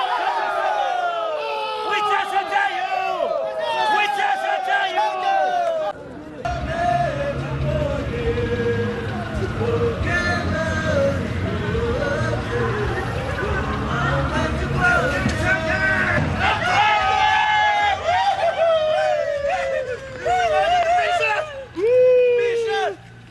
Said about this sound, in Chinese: 感受一下我们玉树足球的这个氛围